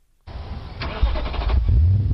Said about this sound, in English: There's a device installed in the cars of first-time drunk driving offenders that will not allow the engine to start until the driver successfully breathes into the gadget.